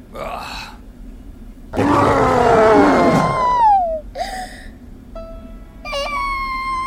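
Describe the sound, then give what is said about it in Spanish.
A deep, growling monster roar performed by a voice in a children's audio story: one loud, sustained, rasping burst, with shorter whimpering vocal sounds after it. “Obsequianos con un gran rugido.”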